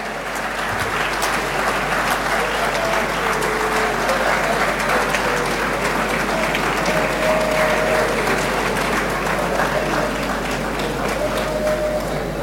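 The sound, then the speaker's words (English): Sustained audience applause at a ceremony, a dense, even roar of many hands clapping that holds steady and loud through the whole stretch without a break. “Shall we please applaud them?”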